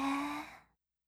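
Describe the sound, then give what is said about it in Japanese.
A single deep, breathy exhale like a slow sigh during a guided relaxation breathing exercise, strong at first and fading smoothly to silence in under a second. “深呼吸、深く息を吸って、吐いて、”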